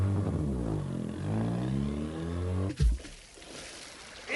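A car's engine revs hard for a racing start, a rough, harmonic roar that swells and climbs before cutting off abruptly, followed by a brief thump and quieter rumble.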